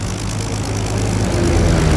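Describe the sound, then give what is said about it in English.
A Spitfire fighter plane takes off with a loud, continuous propeller-engine roar. The dense drone holds steady and grows slightly louder throughout. “The first of the Spitfire fighter planes was taking off.”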